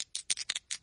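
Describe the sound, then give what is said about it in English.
Dice rolling across a surface: several quick, dry rattling clicks in short bursts over under a second, fairly faint and alone. “I think that's rolling of dice.”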